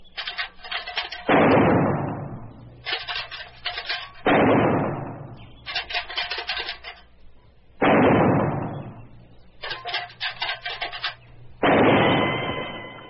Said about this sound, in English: I got the cans spaced 2 feet apart. When do I get to use the holster? In due time. You got to learn how to shoot first. Now, I'm going to rattle a can.